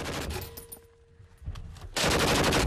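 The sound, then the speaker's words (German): Bursts of gunfire from a gun: a few sharp, rapid cracks in short volleys, then a dense, sustained burst that grows louder at the end, with no voices. “Ziele ein wenig höher und mehr nach rechts. Ein bisschen nach rechts. Nach rechts. Weiter schießen.”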